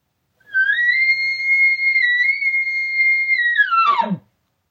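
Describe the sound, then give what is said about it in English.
A bull bugles in reply to a location bugle: one long, steady, high whistling note held for about three seconds, then breaking downward into a short, rough, descending grunt at the end. No other sounds. “So let's say I let out a location bugle and I hear this right here.”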